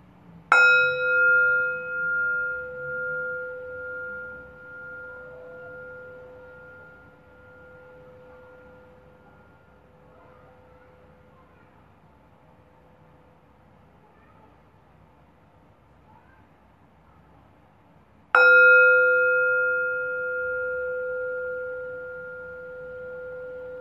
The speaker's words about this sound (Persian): اجازه بدین فرکانس این زنگ افکار مزاحم از ذهنتون دور کنه.